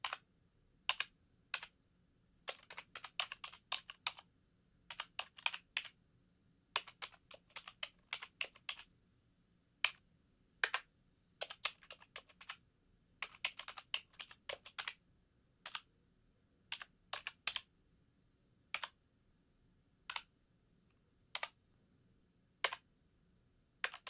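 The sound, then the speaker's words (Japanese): Keys are pressed on a computer keyboard with a pleasing key sound, giving many crisp, quiet clicks in short typing bursts broken by brief pauses. “このキーボードの特徴は、お客さんがさっき言ったように、キーを押すときに出る音が心地いいんだよ。こんな風に。”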